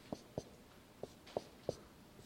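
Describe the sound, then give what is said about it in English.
Chalk or marker strokes on a board during an economics lecture: five faint, sharp taps in an uneven rhythm with quiet gaps between them. “So if I write profit,”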